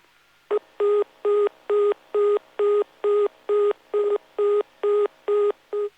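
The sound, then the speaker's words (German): A German telephone busy tone signals that no free exchange line could be reached: a single steady tone pulses on and off many times in an even rhythm, loud and alone, with no voices. “Wenn im Zuge des Verbindungsaufbaues keine freie Vermittlungsleitung erreicht werden kann, dann ertönt der Besetzt-Ton für belegte Verbindungswege.”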